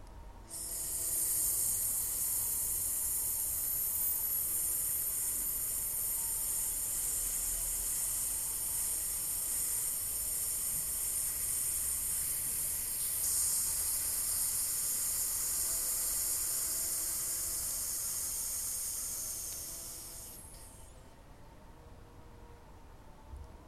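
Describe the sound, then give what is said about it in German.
In a breathing exercise, breath is hissed out between the front teeth. The hiss is a long, steady, high sibilant stream that holds evenly for about twenty seconds, then stops. “Dieser Laut wird zwischen deinen Schneidezähnen hindurchgezischt.”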